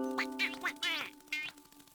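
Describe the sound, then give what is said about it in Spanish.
A duckling quacks in a few short, high, nasal calls with bright, buzzy tones, separated by brief pauses. “¡Un momento! ¿Qué está sucediendo? ¡Ah! ¡Este es un patito!”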